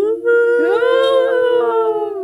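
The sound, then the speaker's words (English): A single long wolf howl: one sustained, loud, tonal cry that rises in pitch early on, then holds a steady, clear pitch for about two seconds, with no voices. “it is, of course, the wolf howl. The moment that you hear that noise, just be aware that everything after that sound will be probably a spoiler.”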